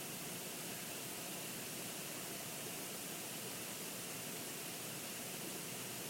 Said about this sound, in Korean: 아주 그냥 아무 소리 안 하고 가만히 있으면 그 시냇물 졸졸졸 흘러가는 소리 정도만 나요.